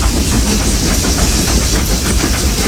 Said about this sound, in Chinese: 世界上最后几列仍在运营的蒸汽机车执着地奔驰在历史中。